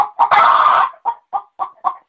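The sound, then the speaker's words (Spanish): A hen clucks loudly: two short notes lead into one long, harsh squawk, followed by four short, evenly spaced clucks with no other sound around them. “la pobre gallina salió cacaraqueando”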